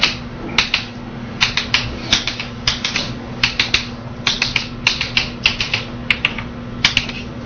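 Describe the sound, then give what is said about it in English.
Someone draws a honeycomb lattice diagram by hand, producing many short, sharp clicking taps in irregular quick clusters over a steady low hum. “So let me consider some lattice, and for simplicity, it's going to be a honeycomb lattice, which I wrote. I'm drawing here.”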